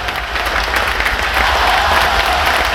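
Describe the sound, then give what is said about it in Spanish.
Audience applause at an event featuring chamamé performers: a dense, continuous patter of many hands, loud and steady throughout its roughly three seconds, with no talk over it. “a ver el aplauso, enorme”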